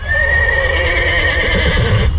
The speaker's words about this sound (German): Ungefähr 200 Pferde sowie viele Kutschen, Wägen, Landauer und Chaisen stehen dabei im Mittelpunkt.